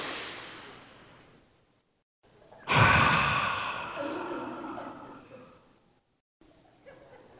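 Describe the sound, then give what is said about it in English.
An audience takes a deep breath together in a sudden broad rush of inhaling that swells and then slowly fades over several seconds, after a softer breathy hiss. “They're taking a deep breath and about to pass out.”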